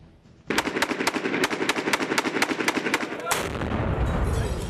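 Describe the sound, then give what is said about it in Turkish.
Gunfire crackles during street fighting in a city centre, with many sharp shots fired in rapid, uneven bursts, then a sustained loud roar that carries on to the end. “Çatışmalar şehir merkezinde yoğunlaştı. Neredeyse her noktadan silah sesleri geliyor.”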